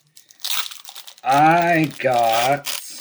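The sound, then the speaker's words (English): Foil wrapper of a trading card booster pack crinkles and tears open in a few short rustling bursts, followed by two long, drawn-out voiced vocal tones. “let's crack one open. I want to see what's inside the Bloodlines cards.”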